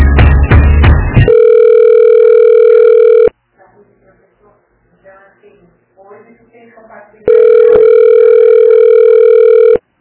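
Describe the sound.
A steady telephone dial tone sounds on a call that fails to connect. It comes in two long, loud, unbroken stretches, with a short burst of mixed noise before the first and faint, quiet talk in the gap between them.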